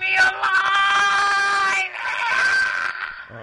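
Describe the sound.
A man yelling: a loud, drawn-out, strained cry that breaks off briefly, then a second sustained yell follows.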